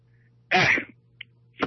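A single loud, sharp sneeze bursts out as a short breathy blast, followed by a couple of faint, brief sounds.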